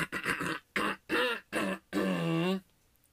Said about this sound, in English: sorry to clear my throat. I got a lot of phlegm